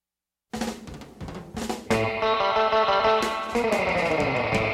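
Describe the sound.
Surf guitar music from an early recording: distorted, effects-laden electric guitar bursts in after a brief silence and grows fuller and louder about two seconds in, with dense sustained notes and a driving band underneath, no voices.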